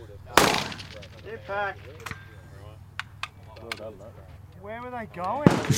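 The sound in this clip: Gunshots from a video of a shooting competition stage: several sharp, loud cracks at irregular intervals, heard under people talking throughout.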